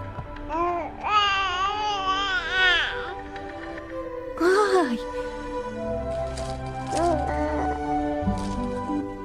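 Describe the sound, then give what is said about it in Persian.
Infant cries in a video game: a few drawn-out, wavering wails with a bright harmonic tone that rises and falls, over a low, busy game background. “اون چیه دیگه؟ آیا هیوله است؟ نه، فقط یه بچه است.”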